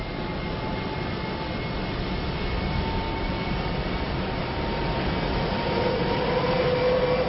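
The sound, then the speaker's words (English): Multi-engine airliner motors running, a dense, even roar that holds steady throughout with no clear breaks, and a faint thin tone joining late. “they can hear the plane motors as they are each one fired in order. The first two are already running. Now three.”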